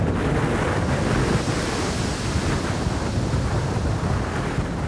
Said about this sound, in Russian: Поздним тревожным вечером буря продолжала свирепствовать.